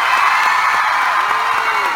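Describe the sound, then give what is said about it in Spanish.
Audience cheering and applause for a stage show's cast: a dense, loud, continuous crowd roar with scattered whoops, holding steady without a break for the whole clip. “¡Un aplauso, por favor!”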